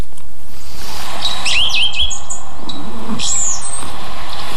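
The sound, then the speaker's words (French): Blue tit song of two to four repeated notes: thin, high chirping phrases in two short bursts over a constant rushing background noise. “La mésange bleue. Une très commune aussi, mais très discrète.”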